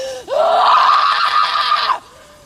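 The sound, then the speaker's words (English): A short, loud scream from actress Samara Weaving in the film Ready or Not, a single sustained high-pitched shriek lasting under two seconds that cuts off abruptly and has no talk over it. “I haven't seen this movie. It's called Ready or Not. This is a short scream”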